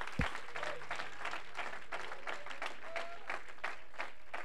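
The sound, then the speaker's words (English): A church audience applauding during a worship service, producing a steady, dense wash of many hands clapping together that stays fairly quiet and even throughout. “If you believe it, one more time, put your hands together and give God praise.”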